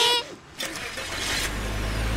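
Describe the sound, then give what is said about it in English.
A car pulls out, its engine giving a low rumble that builds and holds steady under a broad rushing noise, after a short tonal sound at the start. “As she pulls out, a blue car hits her bumper.”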